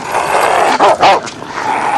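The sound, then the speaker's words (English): An Alsatian barks from behind a door, giving a couple of quick, loud barks over a steady background hiss. “An Alsatian leaps up at him behind a door as he approaches it.”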